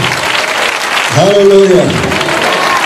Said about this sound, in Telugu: చప్పట్లతో దేవుడు కనపరచాలి గట్టిగా